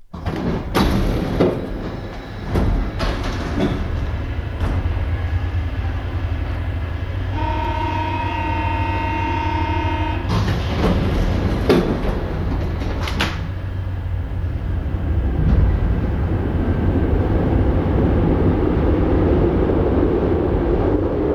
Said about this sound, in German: Ich habe immer gedacht, dass die Pariser Metro eine besondere Seele hat. Ja, sie klingt anders, weiblicher, heller, höher.